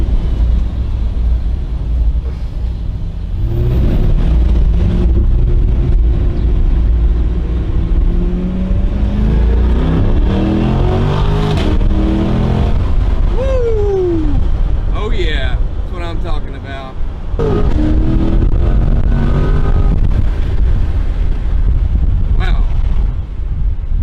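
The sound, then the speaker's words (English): A car in its performance driving mode launches and accelerates hard, its engine tone climbing in pitch over a steady, loud roar, with people talking over it. “Now let's take it for a spin and see what this thing's got. We'll do a little launch.”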